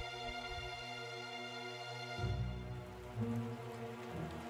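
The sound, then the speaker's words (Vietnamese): Heavy rain falls during the night as a steady hiss that runs for the whole clip, beneath a sustained tonal musical drone. “Đêm ấy trời mưa to dữ dội”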